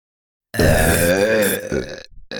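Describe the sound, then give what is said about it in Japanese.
Four people burp simultaneously, merging into one loud, low, croaking belch that holds steady for about a second and a half, then breaks off into a brief ragged tail. “それぞれ2人ずつ、合計4人の同時ゲップです。”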